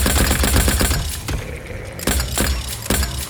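Rapid gunfire in a firefight: a dense run of shots fills the first second, then a quieter stretch broken by a few further loud, sharp cracks.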